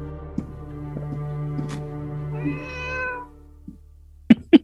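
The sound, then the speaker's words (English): A house cat gives one drawn-out meow over a steady low hum, followed by two sharp clicks near the end. “I'm going to pick up the cat and take it back downstairs, put it on the other side of the door.”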